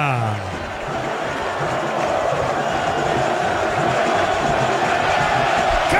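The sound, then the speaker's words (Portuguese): Santos fans roar in celebration of a goal at Vila Belmiro stadium, a dense, loud, unbroken crowd noise with cheering, while a voice talks over it. “Sobe som da Vila Belmiro, é festa do torcedor santista!”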